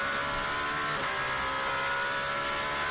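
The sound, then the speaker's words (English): A race car engine roars loudly and continuously as it downshifts through the gearbox from seventh to third, braking into the Tamburello corner, with a brief change in engine tone near the middle. “Seventh gear, then flicks all the way down to third for Tamburello. Zing, zing, zing, zing, zing. You hear it go down the box.”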